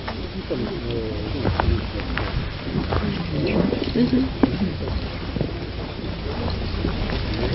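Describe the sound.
Outdoor wind rumbling and buffeting against the microphone as a steady low roar beneath a person talking throughout.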